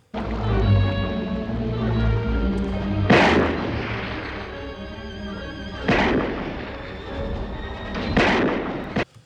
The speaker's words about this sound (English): So as as Brody is firing his uh, weapon and he is putting bullets into the shark, we lose track of Hooper.